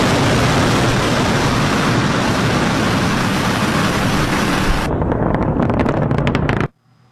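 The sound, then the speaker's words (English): A SpaceX rocket lifts off with a loud, steady roaring rumble. The highest hiss thins out after about five seconds, and the roar cuts off abruptly near the end. “You may recall back in January, SpaceX launched a rocket without a hitch. Ignition and liftoff.”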